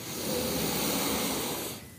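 A slow, deep inhale during a guided relaxation breathing exercise, a soft, airy hiss that holds for under two seconds and then cuts off.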